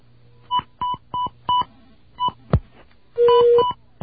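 Telephone keypad DTMF tones sounding while a call is dialed: several short, clear beeps in an uneven rhythm, a brief click, then a longer held tone near the end.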